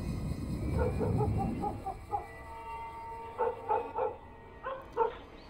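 A dog barks in a village, a few short yelping barks in separate bursts, fairly faint, following a stretch of low rumbling noise at the start.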